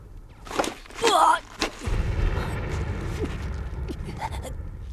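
Live gunfire on a military training course: a few sharp, loud reports burst out, then a dense, continuous low rumble carries on to the end.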